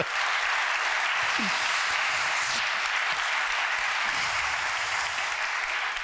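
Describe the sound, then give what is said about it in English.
Steady, dense applause from an audience welcoming a guest onto a stage, holding at an even level from start to finish. “Ladies and gentlemen, put your hands together, please, and welcome Jess Phillips.”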